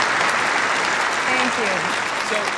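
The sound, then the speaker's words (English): Audience applause welcoming a guest, dense and steady clapping lasting the whole moment, with a voice briefly speaking over it. “Let's give her a hand and welcome her.”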